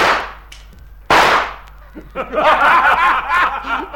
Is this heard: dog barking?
no